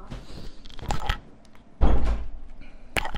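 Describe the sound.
A door being closed: one solid low thump in the middle, with a few softer clacks and rustles before and after it, all fairly faint and separated by quiet.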